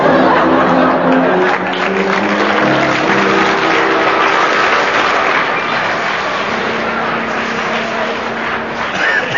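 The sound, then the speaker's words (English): Sustained audience applause, an ovation for a team at a holiday-camp quiz round, forms a dense, steady wash of clapping that holds at an even, loud level for the whole stretch. “Well, that ovation from the audience puts you just in the lead”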